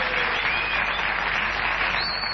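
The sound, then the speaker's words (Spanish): Audience applause for two artists at an evening show, a dense, even wash of clapping that stays loud and steady throughout, with no voices. “Ya que estamos aplaudiendo a dos artistas que nosotros apreciamos mucho”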